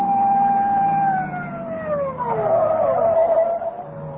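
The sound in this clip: A police car siren wails on a wet road, a loud, steady tone that slides gradually lower in pitch, with a second wavering siren tone overlapping in the last seconds.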